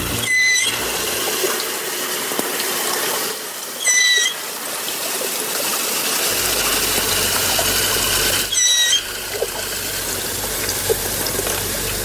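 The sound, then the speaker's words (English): Dugong, the marine mammal called the sea cow, vocalising underwater: three brief, high chirping squeals spaced several seconds apart over a steady, loud wash of water noise. “What you just heard is actually the dugong, or what we call the cow of the sea.”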